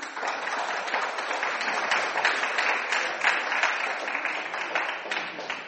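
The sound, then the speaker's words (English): Applause from an audience at a film award announcement, dense and steady clapping that holds at an even loudness for the whole stretch, with no voices rising above it. “Could we have a round of applause for her?”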